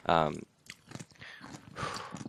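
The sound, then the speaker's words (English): Someone bites and chews pickles, making several soft, wet crunching bursts after a brief spoken moment. The sounds are faint and uneven. “I got to stop eating these pickles for a second.”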